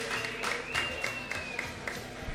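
A small audience applauds a guest guitarist. The clapping is faint and fairly even, with a few sharper claps standing out, and a thin steady tone runs beneath it.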